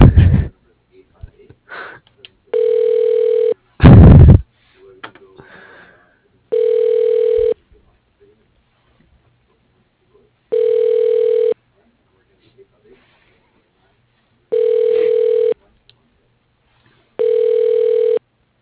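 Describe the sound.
Ringback tone on a telephone line as a call is transferred to an assistant: five steady, evenly spaced buzzing tones of about a second each, separated by silence, with a couple of brief thumps near the start.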